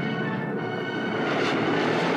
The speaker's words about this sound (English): At a safe distance, he activates the engines and heads for Bespin.